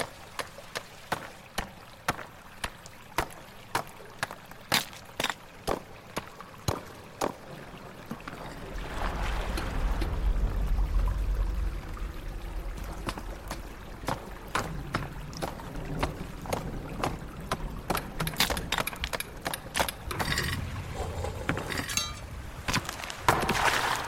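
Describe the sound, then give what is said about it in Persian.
A large nail twisted and struck against a wall that hides a water tunnel, giving sharp, regular knocks for about eight seconds. Then a broad rushing, water-like noise swells up beneath further irregular taps and clinks. “علی با چرخش میخ بزرگ به دیوار ضربه میزنه.”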